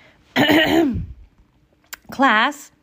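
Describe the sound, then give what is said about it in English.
A woman clears her throat in two voiced, gravelly bursts separated by a short pause. A voice performs the sound. “The class looked up at Mrs. Burton, and she cleared her throat.”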